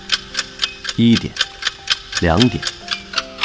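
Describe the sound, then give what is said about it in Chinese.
A clock ticking with fast, steady, crisp ticks at an even rhythm throughout, interrupted twice by short, louder tonal swells that overlap the ticks. “时钟转得飞快”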